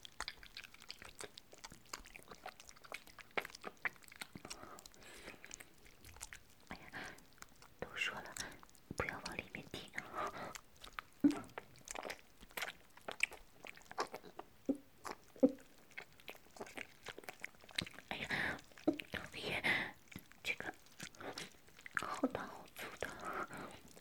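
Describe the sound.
A person chews and eats food with soft, irregular wet mouth noises and small crunchy bites, quiet and close, scattered densely across the whole stretch with no steady rhythm.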